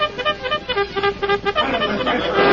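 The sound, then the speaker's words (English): Bugle sounding a signal call, a quick run of short, clear, brassy notes in a steady rhythm, giving way to a rougher, noisier stretch at the end. “Then suddenly the Lone Ranger and Tonto heard the signal they had been waiting for, the clear notes of a bugle.”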